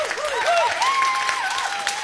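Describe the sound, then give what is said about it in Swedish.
A live music audience in Stockholm applauds a singer and her band. Dense clapping goes on steadily throughout at a moderate level. “Applåder för henne och bandet också.”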